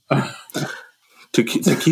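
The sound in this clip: Someone chokes and coughs in three harsh, loud bursts separated by short pauses, with a brief silent gap before the last, busiest burst.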